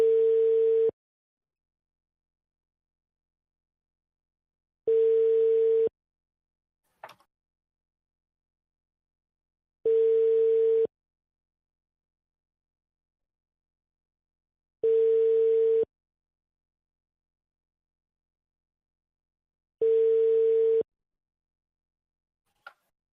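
Telephone ringback tone heard while dialing a call: five steady, low-pitched ring bursts, each about a second long and evenly spaced about five seconds apart, with brief faint clicks between some of them and silence otherwise.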